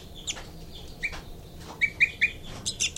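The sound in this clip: Baby birds give begging calls: thin, high chirps repeated several times in quick bursts, with the later ones coming faster, over a soft, steady outdoor hiss.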